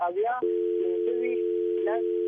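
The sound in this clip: A telephone line tone after a call is cut off. It is a steady, unbroken mid-pitched tone that continues to the end, with a voice talking over parts of it.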